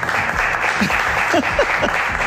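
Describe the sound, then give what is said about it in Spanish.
Applause from a live radio audience squeezed into a small studio space, a dense, steady clapping that holds throughout with a few brief vocal exclamations rising over it. “forzados estos aplausos”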